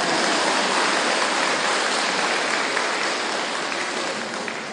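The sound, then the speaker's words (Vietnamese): An audience claps in a dense, continuous wash of hands that sounds almost like heavy rain. It holds steady and eases slightly toward the end. “Vỗ tay đi.”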